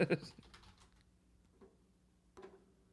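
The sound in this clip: Typing on a computer keyboard: a quick, dense burst of keystrokes at the start, then a few isolated clicks spaced out over the following seconds.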